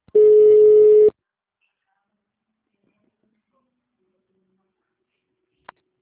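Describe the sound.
A telephone call-transfer tone sounds once: a steady, mid-pitched electronic beep lasting about a second, followed by near silence and a faint click.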